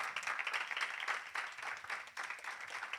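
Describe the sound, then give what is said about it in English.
Quiet audience hand clapping at a church service with young people: an uneven patter of many hands that swells and dips, briefly dropping away near the middle before picking up again. “Let's give our God a hand clap for his death, resurrection, and being selfless. Come on, let's put those hands together”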